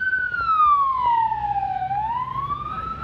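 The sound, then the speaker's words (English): An ambulance siren wails loudly and continuously as it passes by, its tone sliding steadily downward and then climbing back up, with low road rumble beneath. “apparently, it's an ambulance actually. So let's just wait for it to pass.”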